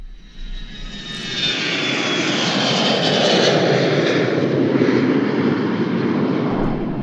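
Airplane engine roar in flight, loud and continuous, a dense steady rumble with a thin high whine fading early on, holding at full strength for the whole stretch.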